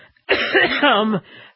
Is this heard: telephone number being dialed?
no